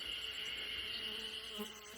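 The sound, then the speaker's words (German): A bee buzzes outdoors in Japanese countryside, a steady, unbroken drone that holds a fairly even pitch and moderate loudness throughout, with no voices. “Oh, eine Bienensumse. Eine Bienensumse ist ja auch mit am Start.”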